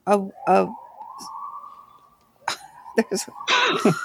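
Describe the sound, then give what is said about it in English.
Sirens sound from the street, a sustained, steady wailing tone running under people talking. “there's sirens going off in the street.”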